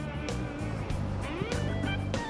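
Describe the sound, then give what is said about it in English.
A silver bus with blue and red stripes drives along a road, giving a steady engine rumble with low droning tones and a few brief louder surges, with no voices. “A silver bus with blue and red stripes moves along a road.”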